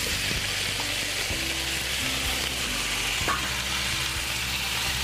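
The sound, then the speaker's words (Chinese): Pig trotters fry in a pan with ginger, giving a loud, continuous sizzle and hiss throughout, with occasional faint clicks and low clatter beneath. “稍微爆香了以后，我们就可以把我们的猪脚放进来”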